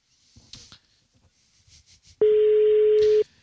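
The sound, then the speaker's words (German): A telephone tone sounds on an unanswered call: one steady, loud, unbroken tone holds for about a second, following a few faint rustles and breaths. “Besetzt geht er noch nicht ran, wie ihr hört.”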